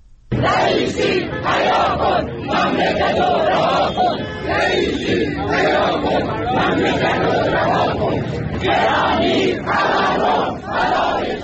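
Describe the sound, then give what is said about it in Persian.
Protesting retirees at a rally in Kermanshah, Iran, chant loudly and in unison. The rhythmic group shouting continues without a break over a dense crowd roar. “صدای بازنشستگان معترض در کرمانشاه رو میشنیدید.”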